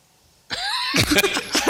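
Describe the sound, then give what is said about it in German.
Coughing comes from an audience at a quiz event, one brief, harsh burst breaking a near-silent moment, with a rough throaty rattle. “Nur Husten aus dem Publikum.”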